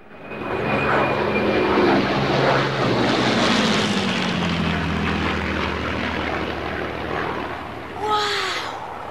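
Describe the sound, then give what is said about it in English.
A low-flying single-engine propeller plane drones loudly and steadily throughout, its engine pitch sliding lower as it passes. A brief higher sound stands out near the end. “They all look up at the low-flying aircraft.”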